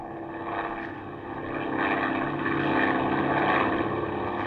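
Light airplane engine in flight at about 5,000 feet: a continuous droning propeller hum with a steady, slightly buzzy tone, swelling gradually louder midway and then holding level, with no voices.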